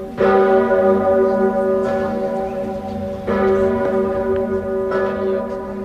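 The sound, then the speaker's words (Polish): Church bells ring out from a Polish cathedral in slow, heavy repeated strikes, each leaving a long, rich metallic hum that carries through to the next. “Na znak łączności z Francuzami zabrzmiały dziś dzwony we wszystkich polskich katedrach.”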